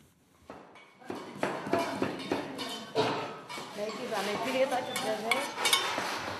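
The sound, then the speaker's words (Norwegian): A knife chops onions and tomatoes with quick strokes in a kitchen in Tripoli, a series of sharp taps mixed with clinking dishes and utensils, while people talk underneath. “kutter løk og tomater med raske bevegelser”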